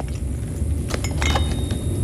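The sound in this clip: Glass test tubes clink as they are handled for filling with a chemical: a few light, bright taps over a steady low background rumble.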